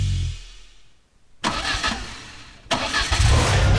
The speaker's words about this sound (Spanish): Hay un motor que está por encenderse. Y cuando acelere, nada volverá a sonar igual.